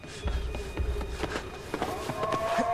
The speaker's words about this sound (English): Bourne is still sprinting across the rooftops.